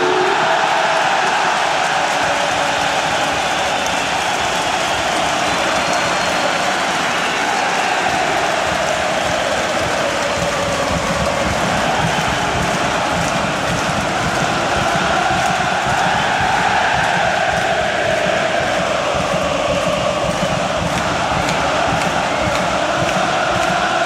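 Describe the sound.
A football crowd at Råsunda stadium before a twin derby, with the end stands standing up, makes a dense, continuous loud roar that holds steady throughout.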